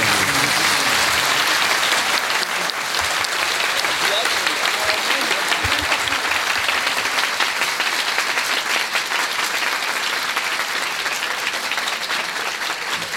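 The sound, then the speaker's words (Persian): A crowd applauds in honor of Imam Ali with a dense, even roar of many clapping hands. The clapping stays loud and continuous for the whole stretch without a pause. “برای امیرالمومنین یه دست بزن تو زندگیت نزده باشه.”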